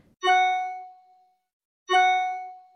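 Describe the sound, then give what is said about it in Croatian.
Two bright chime tones from a new email message notification, each ringing out with a clear sustained note and slowly decaying, separated by a silent gap of over a second, with no talk. “Ili se oglasi zvuk nove poruke elektronske pošte.”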